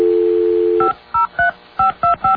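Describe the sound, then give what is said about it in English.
Telephone keypad dialing tones: a steady dial tone holds for almost a second, then five short, clear two-note beeps follow in quick, slightly uneven succession, with no one talking. “Let's see. I'm hoping I'm dialing the right...”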